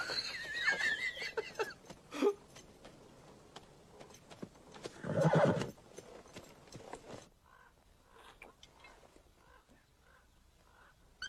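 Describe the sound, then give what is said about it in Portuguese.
Horses galloping and neighing, with many rapid hoofbeats and a loud, drawn-out whinny in the middle, followed by quieter, sparser hoof sounds as the scene settles. “Vamos todos cavalgando pelo desfiladeiro, vamos cavalgando.”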